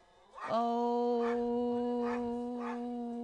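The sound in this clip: A dog howls in one long, steady, mid-pitched tone that swells in quickly and holds for about three seconds, with faint rhythmic pulses over it.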